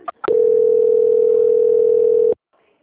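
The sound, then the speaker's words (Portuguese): A steady telephone tone plays while a call is being transferred. After a brief click or two at the start, it holds one even, loud pitch for about two seconds, then stops abruptly. “Só um momento, oi, tá? Vou transferir, só mais um instante. transferência.”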